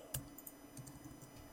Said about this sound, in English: if we will type this simple command, Azure site deployment script dash dash not, and hit enter